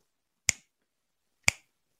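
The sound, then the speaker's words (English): Two crisp finger snaps, evenly spaced about a second apart, each a sharp click that dies away quickly, with silence around them. “Snap those fingers and welcome in a man who's only as cool as the other side of the pillow.”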